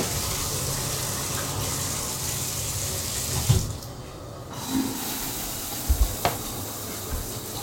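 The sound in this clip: Water runs steadily from a tap as a continuous broad hiss that thins briefly near the middle and then returns, with a few soft knocks near the end.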